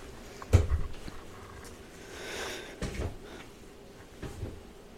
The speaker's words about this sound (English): I need to get a new chair here. Like, this chair is comfortable, but... Yeah. It doesn't really roll like it should.